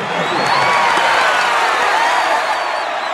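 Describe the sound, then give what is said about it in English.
A crowd cheering wildly as Hunger Games tributes are welcomed. The roar is dense and sustained, with a few higher voices rising out of the mass of noise. “the crowd goes wild”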